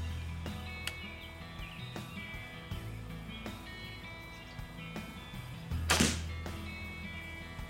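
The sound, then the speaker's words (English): A bow releasing an arrow: a single sharp, loud thwack stands out over quiet outdoor background with a few small clicks and taps before it. “Cool part is when you shoot a bow like this, it's really a lot of fun to shoot, and you can just shoot it all day. And you can see from that feel, it really flung that arrow down there.”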